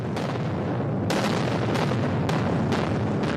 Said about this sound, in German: Das sind ungefähr so 100 bis 120 Löcher. Die werden mit Sprengstoff besetzt und dann gesprengt, mit Fachjargon geschossen.